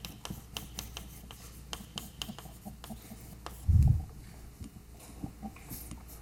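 Writing on a board during a mathematics lecture: many short, scratchy strokes and taps in an irregular rhythm, fairly faint, with one louder low thump near the middle and no talk.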